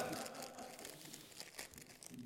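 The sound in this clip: A foil bag of scampi fries is opened with soft crinkling and tearing: a faint, continuous rustle broken by a few sharper crackles.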